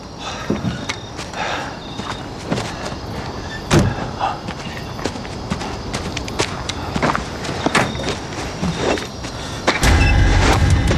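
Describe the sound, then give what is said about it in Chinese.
Footsteps and clattering door and latch clunks are followed near the end by the low rumble of a car engine starting as the car is about to be driven off. “咱们赶紧撤吧。 你去开车。”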